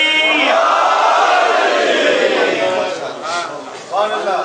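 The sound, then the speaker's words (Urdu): A crowd at a religious gathering shouting the slogan Naara-e-Haidari, a loud, sustained surge of many voices in unison that dips, then swells briefly again. “جب وہ قرآن سے ایسے قصوں سے آسن سبق حاصل کرے تو پھر نشہ ولایت میں مخمور ہو کر لگا دیں نعرہ حیدری”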